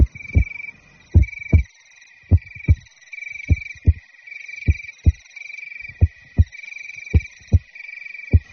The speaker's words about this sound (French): Ça fait comme ça un cœur qui bat.